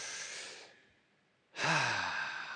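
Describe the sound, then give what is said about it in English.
A group of people take a deep breath together: a soft breathy exhale fades into a short pause, then a louder, sustained rush of breath follows, with no talking. “Take a deep breath, all right? 1, 2, 3, take a deep breath.”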